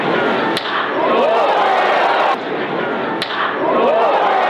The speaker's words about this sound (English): That was the sound of a baseball off the bat of Jack Caglione